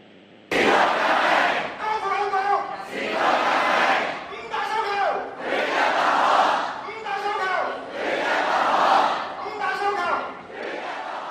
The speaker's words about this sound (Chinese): 咁亦都睇到呢即係都听到好多嘅市民呢都喺度呢高呼緊啲口号。咁可以听一下呢即係头先即係集会高呼口号嘅一啲嘅情况咁样嘅。